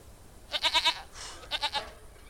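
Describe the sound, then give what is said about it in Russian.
A goat bleating on the roof of a house: two wavering, mid-pitched bleats, each with a rapid quavering pulse, are separated by a short pause with faint breathy noise. “На крыше дома стоит коза.”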